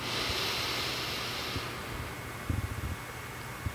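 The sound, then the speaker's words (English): A deep inhale through the nose in a guided meditation: a soft, breathy hiss for about a second and a half, then quiet low rumbling. “And again, take a deep inhale”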